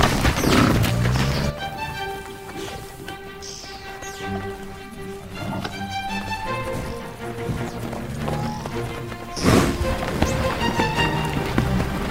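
A herd of buffalo moves past in a continuous rumble of heavy hoof thuds, knocks and crashes. The sound stays dense throughout and swells louder near the end.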